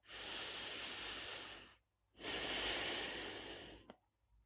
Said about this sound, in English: Breathe in and forgive us our sins.